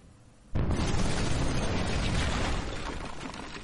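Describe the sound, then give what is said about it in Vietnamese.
A large wooden door shatters with splinters flying in a fantasy scene: a sudden loud crash breaks in from quiet and becomes a sustained roaring burst of noise that eases off only slightly toward the end. “Cửa lớn bỗng nhiên vỡ vụn ra, các mảnh gỗ văng tung tóe.”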